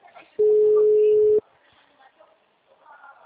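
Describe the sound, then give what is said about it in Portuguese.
An outgoing call to a mobile phone gives a single ringback tone, a steady pure hum lasting about a second, with faint voices before and after it. “Eu tô ligando pra ele.”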